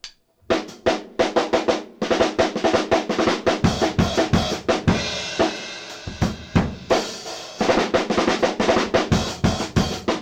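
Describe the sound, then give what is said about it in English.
Rock drum pattern played on snare, hi-hat and bass drum: a steady groove of many crisp, punchy hits with cymbal wash, loud and alone, with brief pauses near the start and midway. “keeping it on a snare, and each right, putting it onto the hi-hat and accompanying it with the bass drum.”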